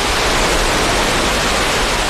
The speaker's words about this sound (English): The new flood wall blocks her view, but you can hear the water racing behind us.